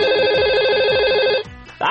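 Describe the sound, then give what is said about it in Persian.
An electronic telephone ringtone signals an incoming call, warbling rapidly and loudly in a fast, even trill for about one and a half seconds. It breaks off briefly, then a new tone starts at the end. “تلفن داریم، تلفن داریم. خدای من درست میشنوم؟ یعنی اولین تلفن، اولین تلفن آرتاشو”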